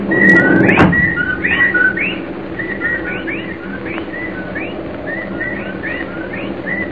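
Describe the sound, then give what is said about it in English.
Whippoorwills calling at night: many repeated whistled phrases, each a quick upward-sweeping note in a steady rhythm. A brief knock sounds early on, over a low, quiet background rumble. “Listen, well, there are the whippoorwills. I'd better get out there.”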